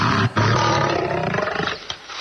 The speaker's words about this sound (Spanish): Tengo una grabación de un león del anfiteatro romano.